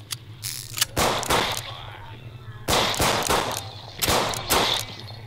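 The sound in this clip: Weapon reloading in a video game: several sharp mechanical clacks and clicks in quick clusters with crack-like bursts, loud over a steady low hum.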